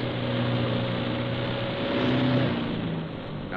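A truck engine drones as it drives downhill at night on an icy, slippery road approaching a hairpin turn. The rumble is steady and continuous, with no talk over it.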